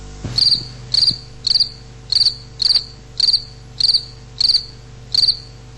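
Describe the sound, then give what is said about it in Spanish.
Crickets chirp in a regular, evenly spaced series of high, buzzy trills, roughly two per second and loud and clear, over a low steady background hum. “¿Usted dice una manifestación de grillos? Escuche.”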